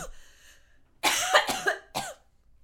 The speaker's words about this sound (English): I just sometimes get a cough attack.